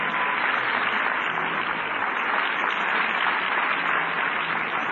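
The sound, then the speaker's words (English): Applause from an audience at a church service: steady, dense clapping that holds at an even level for the whole stretch, with no break and no voices above it. “Let's give Lovey and the Lord a big hand. Praise God.”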